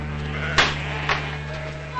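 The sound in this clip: Sheep bleating as they run out of a corral: two short, sharp bleats in quick succession over a steady low hum.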